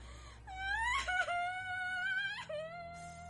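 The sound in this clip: A girl bursts into tears, letting out loud, drawn-out wailing sobs whose pitch wavers and climbs, broken by a few short catches of breath between the cries.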